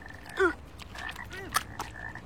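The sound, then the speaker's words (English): Croaking from a toad: a few short, raspy calls with quiet gaps between them, the loudest near the start and another sharp one partway through. “It's Toads.”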